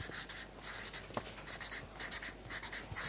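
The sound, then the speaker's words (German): A word written down by hand: a faint, continuous scratchy scribble of pen strokes with small pauses between letters. “Schreib es mal äußere.”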